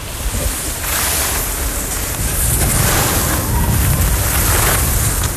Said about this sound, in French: Et c'est parti, attention, je descends tout doucement en chausse-neige.